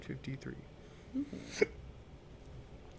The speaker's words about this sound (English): Well, I had to hiccup.